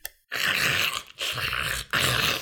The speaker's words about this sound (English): the clanging of claws, and the horrible roars that shook every building of the city.